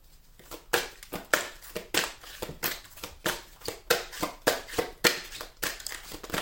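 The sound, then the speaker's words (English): Tarot cards are shuffled, producing many crisp, papery riffling bursts in a fairly regular rhythm with no talking. “Three cards came out. I'm going to take the one that landed on the table. I'm going to put the other two back.”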